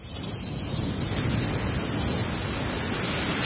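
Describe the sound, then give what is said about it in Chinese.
Ocean waves wash onto a beach in a steady, broad rushing roar of surf that stays at an even level throughout. “在大热天时的时候听下这些海浪声都有种很凉快的感觉。”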